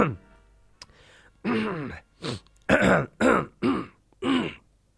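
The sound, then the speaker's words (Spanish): Harsh throat clearing and coughing from someone who has just choked on something going down the wrong way, in six loud, rough bursts at an uneven rhythm, some with a groaning voiced edge. “Ay, Dios mío. Me trapiqué. Eso. Me trapiqué. Oye, sí, me llegó a la garganta dentro.”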